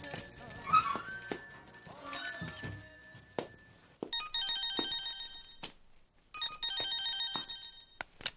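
A telephone rings with a bright, high electronic trilling ringtone. It comes in two bursts separated by a short pause, after a stretch of other fainter sounds.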